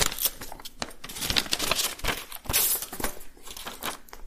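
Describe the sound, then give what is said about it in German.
Paper envelope being fetched and handled: crisp crinkling and rustling with many sharp, irregular paper transients, steady and fairly loud throughout, no voices. “Und wir haben eine Hörerfrage bekommen und die ist an einem Umschlag und die werden wir jetzt gleich beantworten durch halt die 42. Seite. Ich hole den mal.”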